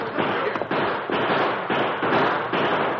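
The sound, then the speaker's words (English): Rapid, overlapping gunshots from a Western shootout between outlaws sheltering behind rocks and gunmen firing from timber. The loud, dense bursts run through the whole clip with no voices. “All right, return the fire.”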